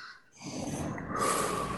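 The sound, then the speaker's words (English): A deep breath taken during a mindfulness exercise: a soft, airy inhale swells after a brief quiet moment and holds steady, with no talk over it. “And breathe.”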